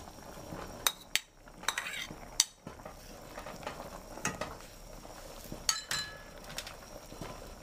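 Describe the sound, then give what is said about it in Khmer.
A utensil scrapes and clinks against a cooking pot as meat and mushrooms are stirred. Several sharp metallic knocks stand out over a soft, steady sizzle, with no talking. “យើងកូរវាឲ្យសព្វចឹងយើងឃើញថាសាច់របស់យើងទន់ហើយ”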